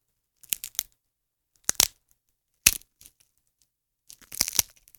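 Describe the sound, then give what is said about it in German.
Florist's foil and a bag of crisps crumpled together imitate a cosy crackling campfire: a few dry, crisp bursts of crackling and snapping, separated by short silences, with the last burst longest and densest. “Zusammen ergibt sich folgendes Geräusch. Ich hoffe, euch ist es ein wenig warm geworden, denn damit haben wir ein gemütliches Lagerfeuer imitiert.”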